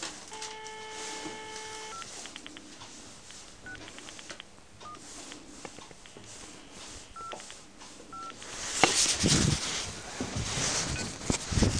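Telephone keypad tones sound as a number is dialed to make an official call. A series of short electronic beeps is spread over several seconds, followed by louder rustling and handling noise.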